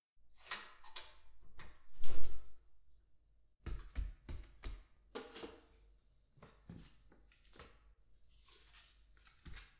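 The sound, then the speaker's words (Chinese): A window is opened by hand, giving a few knocks and thumps, with one heavier bump early on and lighter clattering afterward, separated by quiet gaps. “窗户也要打开，要不然容易晕倒的。”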